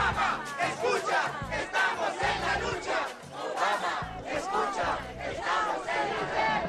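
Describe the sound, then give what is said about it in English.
Thousands of protesters in Washington demanding immigration reform chant a rhythmic Spanish slogan in unison. The loud crowd repeats the phrase twice in a steady, pulsing cadence. “That's the sound of thousands of protesters who converged in Washington on Sunday to demand immigration reform”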